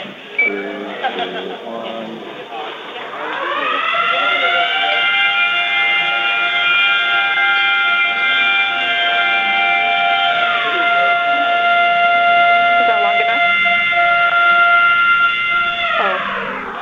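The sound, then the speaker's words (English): A Planet Fitness lunk alarm going off in a gym. After a few seconds of mixed noises, a loud siren-like wail with stacked harmonic tones sweeps upward and then holds steady for over twelve seconds before cutting off. “Two different Planet Fitness gyms set off their lunk alarms, and if you don't know, the lunk alarms are the things that they have on the wall designed to shame their”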